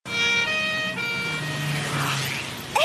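An ambulance siren wails loudly and continuously in road traffic, its steady electronic tones sustained throughout with a low vehicle rumble beneath.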